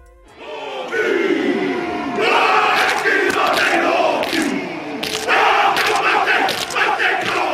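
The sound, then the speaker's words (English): A rugby team performs a haka, the traditional Maori warrior dance, with many voices chanting and shouting together. The powerful rhythmic bursts of loud, forceful cries surge in several waves. “Behind me right there, the sound of a traditional warrior dance of New Zealand's native Maori people.”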